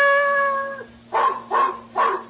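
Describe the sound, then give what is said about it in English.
A large Belgian shepherd dog bays unhappily outside an apartment house: a drawn-out, steady howling note, then three short, loud barks in quick succession. “outside, a large Belgian shepherd dog stood looking up at a ground floor window and baying unhappily.”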